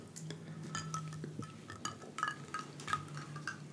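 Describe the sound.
A spoon stirring a vodka and tomato juice drink mix in a jug, giving many light, faint clinks and scrapes in a loose, steady rhythm with no talk.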